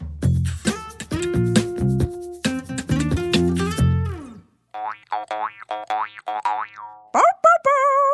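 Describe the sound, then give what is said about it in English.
Cartoon boing effects of a character bouncing on a bed: a rapid run of springy, twangy boings, then a string of shorter bouncy tones and a final sweeping boing. “It was Blue bouncing and getting cozy in her bed.”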